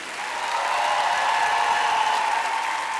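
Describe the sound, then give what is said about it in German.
Concert audience applause for a group of musical performers, swelling quickly from quiet into a steady wash of many clapping hands that holds loud and even to the end. “Meine Damen und Herren, sehr verehrtes Publikum, einen großen Applaus für Pia Dauwes, Roberta Valentini,”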